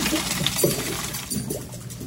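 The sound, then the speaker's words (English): Boiled macaroni being drained through a strainer, an uneven rush and splash of water with a few sharper clattering bursts, fairly quiet. “Next, we're going to strain the macaroni, then put it back into the pot.”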